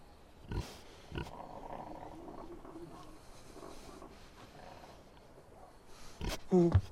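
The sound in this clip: Pigs in a pen give low snuffling grunts over a noisy background with faint voices, ending in a brief higher squeal.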